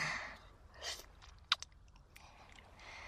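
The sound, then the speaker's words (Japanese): Soft chewing and biting of cherries eaten for dessert: quiet, moist mouth sounds with a few small crisp clicks and one brief sharper crunch in the middle, with no talking. “私はデザートのさくらんぼちゃんいただいてるから。”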